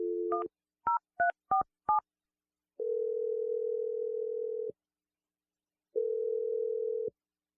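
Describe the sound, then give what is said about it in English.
Touch-tone telephone keys beep in a quick series of short dual-tone pips as a number is dialed, followed by two long, steady ringing tones separated by a pause, with silence between. “I'm going to dial his number right now.”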